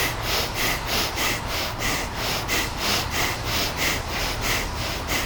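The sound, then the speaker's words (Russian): Rapid, rhythmic breathing during a kriya yoga breathing exercise warm-up: many quick, forceful breaths in an even pulse, loud and steady, with no talk. “Дышим, дышим, дышим.”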